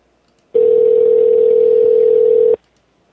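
A steady telephone dial tone sounds from a phone booth as a call is placed: one continuous, even mid-pitched hum that lasts about two seconds alone, then cuts off abruptly.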